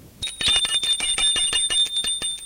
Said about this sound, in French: Vers les 9 heures, sonne au portail son fils.